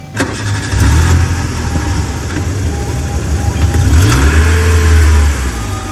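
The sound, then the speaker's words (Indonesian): A car engine starts and the car moves off slowly. A steady mid-pitched engine hum grows louder after the first second and swells again near the end, with no talk. “Kleser mobil maju lalaunan ngajungjug ke rumah sakit”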